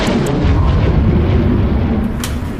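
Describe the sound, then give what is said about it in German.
A thunder sound effect in a radio play, a loud, deep, continuous rumbling roar that holds steady and eases slightly toward the end. “Was war das eben? Ich hab Donner gehört.”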